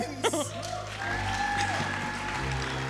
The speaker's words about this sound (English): Big round of applause for Andrew Hansen, thank you! Keep it going